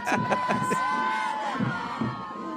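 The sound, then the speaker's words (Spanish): A large, packed crowd of fans cheering, with a few sharp shouts and whoops rising over a continuous wash of excited voices at a fairly steady, loud level. “Harto público, ¿no? Está una locura. Mucho fanaticada tiene aquí.”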